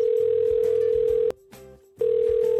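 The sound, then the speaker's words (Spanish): A telephone ringback tone sounds while a call is being placed: a steady, low, continuous beep that breaks off for a short pause and then resumes, clear and fairly loud with no talk over it. “quería hacer una pequeña llamada al Sergio.”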